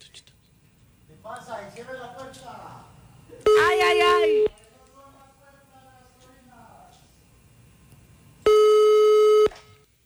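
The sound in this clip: Two loud, steady electronic telephone call tones sound, each lasting about a second and separated by a long pause. People talk quietly before and between the tones.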